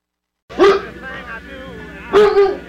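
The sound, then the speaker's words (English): A police-trained Doberman Pinscher barks twice, loud and sharp, about a second and a half apart, with a quieter, sustained vocal sound between the two barks. “That's my dog, Roma. He's a Doberman Pinscher who's trained by the police”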